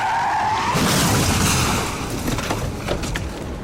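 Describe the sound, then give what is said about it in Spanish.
Tires skid and squeal as a police car turns sharply during a chase, a loud, sustained screech with engine noise that eases slightly toward the end. “410, vehículo a la vista, en persecución. El oficial gira justo a tiempo.”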